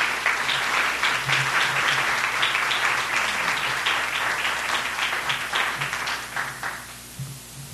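Audience applause welcoming a lecturer before an evening lecture: dense, steady clapping throughout that eases slightly toward the end.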